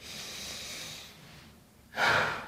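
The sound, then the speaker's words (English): A person breathing in with a long, soft, rushing inhale, then after a short pause letting the breath go in a louder, breathy release. “So by laying on there, I want you to experience what it's like to breathe in and let go.”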